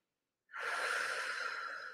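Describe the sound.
A long, breathy airflow during a yoga pose starts abruptly after a moment of silence and continues steadily at low volume, with no speech.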